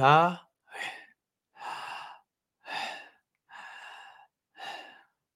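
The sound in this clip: Slow breathing, inhalations and exhalations, heard as six separate airy breaths with short pauses between them. The first breath carries a voiced, sigh-like tone; the rest are soft, hushing rushes of air.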